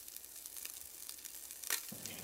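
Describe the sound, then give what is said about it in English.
Half an onion sizzles in butter and olive oil in a pan, a faint, steady hiss with a brief sharper crackle near the end. “I'm gonna add a little bit more butter, a little more olive oil, and now I'll add half an onion to the pan.”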